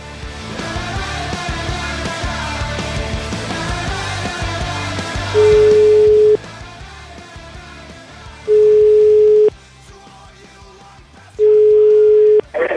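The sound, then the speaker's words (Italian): Ringing tone of an outgoing telephone call to a listener: three steady, mid-pitched beeps, each about a second long, spaced evenly by silent gaps, following a stretch of music that fades out. “Ma chiamiamo questa Monni.”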